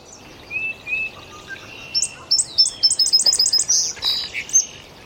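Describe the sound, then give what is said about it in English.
An indigo bunting sings in a maple tree, its high, sweet notes grouped into phrases that are each repeated, with a quick run of rapid paired notes in the middle, alone over a faint low background hiss. “Up above us, there's an indigo bunting singing up in the maple right there. It's the bunting. That high-pitched sound, and every note is repeated, every phrase is repeated.”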